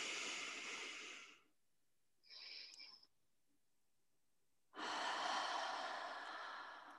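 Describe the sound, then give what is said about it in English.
Slow, deep breaths during a guided relaxation, heard as long airy rushes at the start and end with a shorter, quieter breath in between, each separated by silence. “Let's breathe it in one more time. I love it. Sunshine breath.”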